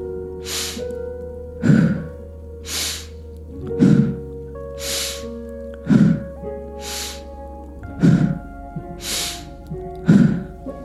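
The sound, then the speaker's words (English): Rhythmic breaths from an active breathing exercise, about ten sharp, noisy inhales and exhales repeating roughly every second over a steady, quiet tonal background, with no talking. “Starting that halo active breath again.”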